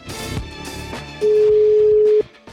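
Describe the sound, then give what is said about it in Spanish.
A telephone tone sounds while a number is being dialled: one loud, steady mid-pitched tone holds for about a second after a stretch of fainter mixed sound. “Bueno, una vez más y si no, no contesta. Estamos llamando a Jesús Guigu.”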